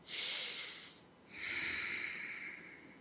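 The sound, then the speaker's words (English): Deep breaths during a guided relaxation exercise: a soft, airy inhale, a short pause, then a longer, gently fading exhale. The breathing is quiet and heard alone, with no talking. “take a couple of deep breaths and feel the breaths moving through your body”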